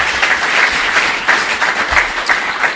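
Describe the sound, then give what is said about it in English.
An audience at an evening recovery meeting applauds in steady, dense clapping that holds at an even, fairly loud level throughout, with no voices heard over it. “Applaud yourselves.”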